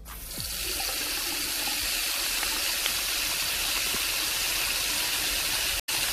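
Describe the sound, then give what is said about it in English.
Tap water runs steadily into a sink basin, a continuous bright, even hiss of flowing water with a brief cut near the end and no voices. “the sound is a running tap. A running tap is what we're looking for today.”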